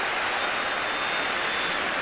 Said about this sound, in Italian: Applausi da parte di entrambe le curve ai 22 giocatori in campo.